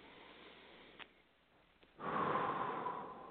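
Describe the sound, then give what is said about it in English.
A quiet deep breath taken after a fingertip-tapping exercise for anger, following a short near-silent stretch with a couple of faint clicks. The breath rises suddenly into a soft, sustained airy hiss that fades toward the end. “And then take a deep breath.”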